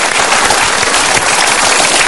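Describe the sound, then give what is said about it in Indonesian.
Loud audience applause welcoming a couple to the stage at an event, a dense, steady roar of many clapping hands throughout with no talk over it. “Kita berikan tepuk tangan.”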